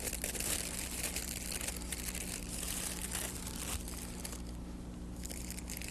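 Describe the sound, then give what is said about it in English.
Paper is twisted and crumpled into a bow tie shape, making a soft, continuous crinkling and crushing rustle that stays fairly quiet and steady throughout. “Maybe I could make a bow tie out of paper like this.”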